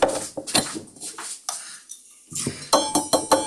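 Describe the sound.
Metallic clinks and knocks from the metal milk bottle of a Krups Roma EA8108 coffee machine being handled, several sharp ringing taps arriving in irregular bursts with a short quiet gap partway through.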